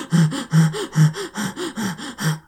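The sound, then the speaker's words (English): An adult voice imitates a baby's labored breathing with a quick, steady run of short, huffing gasps, about four every second, each one a breathy, voiced puff. “Labored breathing.”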